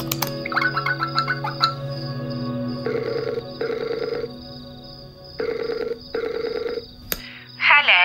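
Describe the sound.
Ringback tone of an outgoing telephone call to England: two double rings of buzzy tones separated by a pause, preceded by short electronic tones, then a click before a voice answers.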